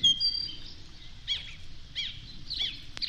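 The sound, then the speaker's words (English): A single bird sings loudly, repeating short chirpy, whistled phrases about every half second over a faint low rumble. “There's like one bird in there that's really going for it.”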